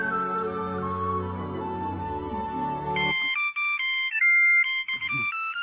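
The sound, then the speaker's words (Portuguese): Telephone ringing with an electronic warble of alternating high tones, repeating in a steady pattern after about three seconds of droning tonal sound, with no talk. “Telefone, querida.”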